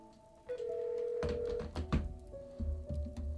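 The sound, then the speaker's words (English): Telephone keypad tones sound as a number is dialed: a steady beep, then several short tones and soft thumps of buttons being pressed, all fairly faint. “I'm dialing right now. I'm still dialing. There's more numbers.”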